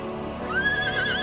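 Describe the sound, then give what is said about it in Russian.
Horse neighing from a cartoon: a single short whinny that rises and then wavers at a high pitch over a soft, low background, lasting under a second. “Он поворачивается на ржание бубенчика. К ним из лесу выходит конь Клары.”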